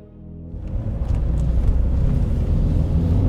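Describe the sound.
A limousine's engine rumbles as it drives, quieter at first, then swelling after half a second into a steady low drone with no voices.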